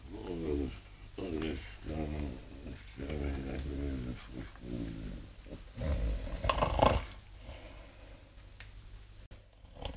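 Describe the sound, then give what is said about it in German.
A man lying asleep snores in a run of raspy, rhythmic, low snorts through the first half. Each breath is a rough, buzzing rattle, followed by a noisier burst and a quieter stretch. “der Tote schnarcht ja. Hier liegt irgendein lebendiger Lümmel.”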